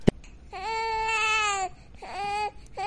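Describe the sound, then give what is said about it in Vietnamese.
A young child cries in a forest. A sharp click comes first, then long wavering wails with a short gap between them and a third cry beginning at the end, loud and alone. “bỗng nhiên trong rừng cây truyền đến tiếng trẻ con khóc oa oa”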